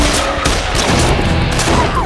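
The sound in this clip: A volley of gunfire from a line of shooters firing together on command at attacking pirates: a loud, dense, sustained crackle that fills the whole clip without clearly separate shots.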